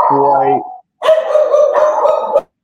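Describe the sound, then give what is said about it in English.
A dog barks loudly twice: a short harmonic bark, then after a brief pause a longer, drawn-out howling bark. “There it is, folks. That dog even disagreed.”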